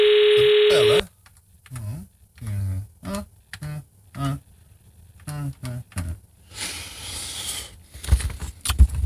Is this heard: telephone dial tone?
yes